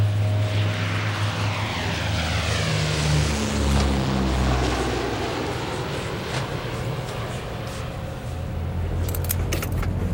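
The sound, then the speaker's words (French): A Fairchild propeller aircraft taking off, its engines giving a steady, loud drone with low rumble and a whining pitch that slowly shifts, continuous for about ten seconds with no voices. “Après quelques atermoiements, à 14h18, le Fairchild a donc redécollé.”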